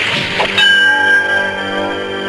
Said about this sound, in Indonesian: Hebat, dia menangkis cangkir dengan pedang.